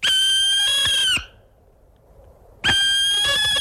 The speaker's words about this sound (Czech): To je sova pálená, ona byla poslední, za husicí Nilskou a taky za volavkou Popelavou. Ta zní takhle.